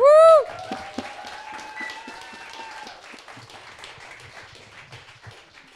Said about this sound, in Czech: takže ji přivítejte naprosto velikým potleskem.